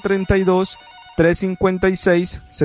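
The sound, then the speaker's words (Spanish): Telephone ringing with an incoming call to a Spanish-language radio show, sounding in repeated bright bursts with a pause partway through. “Me informa el máster que ya tenemos la primera llamada del día.”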